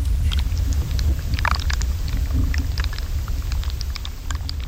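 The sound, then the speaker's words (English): Tundra plant roots shifting underground, picked up by buried microphones, make a continuous low rumble scattered with many faint crackles and ticks. “What you're hearing is these plants, as they move, like their roots shift underground, and then that movement is registering in the microphones.”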